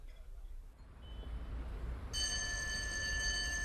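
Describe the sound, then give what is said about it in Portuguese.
A telephone rings with a bright, steady electronic tone that starts partway through and continues to the end, over a low background rumble. “Oh, desculpa, tenho que atender esta chamada.”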